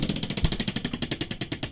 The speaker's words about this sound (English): We have introduced the Wheel of Pain. It sounds like this.